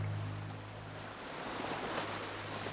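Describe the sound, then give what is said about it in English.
Waves break on the shore as a soft, continuous wash of surf, an even hiss that swells gently in the middle. The sound stays faint throughout, with no voices. “Just below them, waves break on the shore.”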